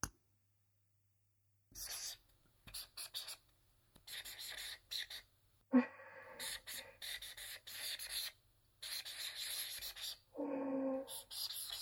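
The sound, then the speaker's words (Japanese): Scratchy strokes of a pen or marker coloring in an illustration by hand, coming in short irregular bursts separated by pauses, faint and dry over a low steady hum. “イラスト、あとは色を塗るだけだから待ってて。”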